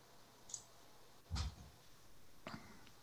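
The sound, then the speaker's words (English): A few faint, sharp mouse clicks on a website's buy now button, spaced out over about three seconds; the middle click is the strongest. “Let me click the buy now button and see what happens.”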